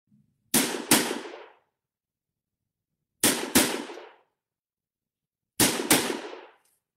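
Pistol shots from a Belgian FN model 1910 pistol in 7.65 calibre: three pairs of sharp, loud bangs, each pair a quick double shot with a short decaying tail, separated by silence.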